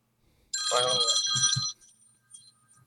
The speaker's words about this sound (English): hey, can you get that? I'm telling my cousin on the phone right there. It's a FaceTime.